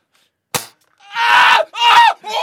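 A single sharp gunshot crack rings out once, short and loud, then brief silence before drawn-out, wavering vocal cries follow in several loud bursts.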